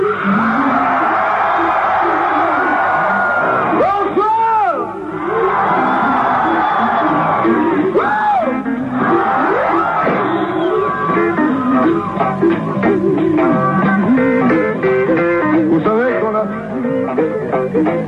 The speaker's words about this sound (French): pour qu'on entende qu'il y a 40 000 personnes, j'aimerais tous en même temps vous entendre crier.